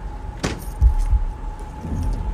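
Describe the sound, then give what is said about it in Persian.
A Peugeot 206 car door is locked with one sharp click, followed by a couple of low dull thumps over a faint steady hum. “در 206 رو قفل میکنه”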